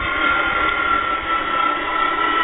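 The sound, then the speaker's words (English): Jet engine roar of an Eastern Airlines Boeing 727 with its engines mounted in the tail assembly, a steady, even whooshing drone with no talk. “Ryan, look! There's a new kind of plane! That's Eastern's new Boeing 727 jet! Look how high the tail is! 34 feet! Look where they put the jets! In the tail assembly.”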